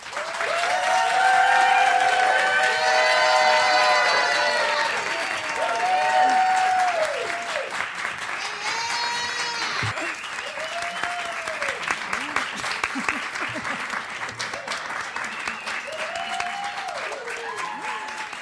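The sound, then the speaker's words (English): Audience applause at a library author event welcoming two writers on stage: loud, dense clapping from many hands that builds, holds, then thins and fades toward the end. “Well, I know we just clapped. I know we just did it”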